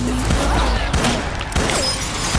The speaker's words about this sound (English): Shoot at him! Those were warning shots, honey!